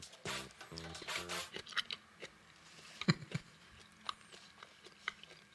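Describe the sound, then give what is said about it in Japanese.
Soft chewing and biting on grilled pork jowl (tontoro). Many small, moist, crunchy mouth sounds repeat irregularly, with a few sharper bites, all fairly faint and with no talk. “トントロいっちゃいますちっちゃいのちょっと先に食べてみます”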